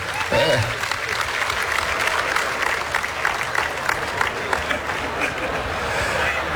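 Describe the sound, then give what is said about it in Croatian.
Applause from an awards ceremony audience welcoming the evening's first winner, a steady wash of clapping that continues throughout while a voice speaks over it. “Molim vas, dočekajmo ga pljeskom, prvi dobitnik večeri.”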